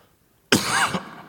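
A single harsh cough from someone with a tickle in the throat, loud and abrupt, lasting about half a second after a brief silence.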